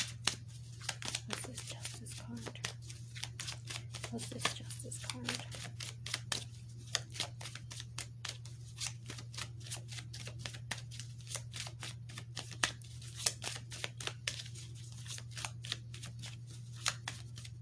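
Tarot cards are shuffled and handled in a long, continuous stretch of crisp papery clicks and riffles, many quick snaps following one another over a low, steady hum.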